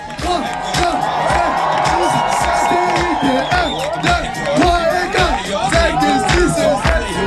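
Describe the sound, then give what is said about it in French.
A crowd at Club France cheers and chants for the French rugby sevens team after their Olympic gold, loud massed voices singing a rhythmic, repeating chant with whoops over a continuous roar. “Une médaille d'or olympique que les Bleus du rugby à 7 ont bien fêté, notamment avec le public du Club France, comme vous l'entendez. Des chants, encore des chants et un peu de danse”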